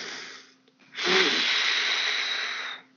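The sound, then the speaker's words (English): Deep human breath drawn in through the nose, then blown out in a long, loud, breathy rush that holds steady for nearly two seconds before stopping. “You're taking a big breath, a whale breath, right? You're bringing it in through your nose, right? So you're going,”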